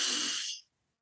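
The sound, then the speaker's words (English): A single deep breath drawn in through the nose during a relaxation breathing exercise, a soft, airy hiss that holds steady for about half a second, then tapers quickly into silence. “Nice deep breath in through the nose.”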